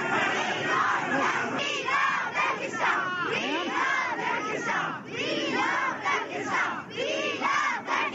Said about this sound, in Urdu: مظاہرے کے دوران وہ یہ نعرے لگاتے رہے۔